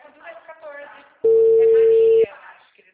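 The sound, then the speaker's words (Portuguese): A telephone call gives a single steady ringback tone lasting about a second, loud and clear between stretches of talk. “Eu vou mandar uma mensagem pra ela agora pra gente fazer a ligação.”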